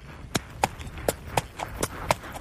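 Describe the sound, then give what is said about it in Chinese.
Horse hooves clip-clop as riders walk their horses, one of them a black horse. The sharp, faint knocks come in a steady, even rhythm, several in quick succession. “李华和 Larry 一起骑马”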